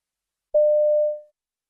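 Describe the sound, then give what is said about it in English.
Telephone tone as a man phones his local newsagent's shop: a click, then one steady mid-pitched beep lasting under a second, heard alone. “You hear a man phoning his local newsagent's shop.”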